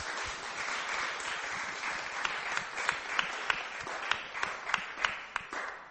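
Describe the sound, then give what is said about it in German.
Congregation clapping in praise to Jesus during a bilingual church service: steady, dense applause with several sharper individual claps standing out near the end, moderately loud and without talk. “Let's give Jesus praise. Also lasst uns Jesus klatschen.”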